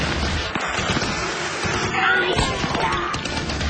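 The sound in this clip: Rifle gunfire from a battle scene in a radio drama: a dense, continuous volley of overlapping crackling shots that fills the whole stretch at a steady, loud level.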